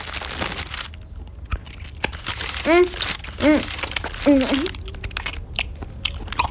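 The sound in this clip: Crunchy biting and crinkling as cookies and liquorice snails are eaten, a few crisp chomps with short voiced murmurs between them, moderately loud throughout.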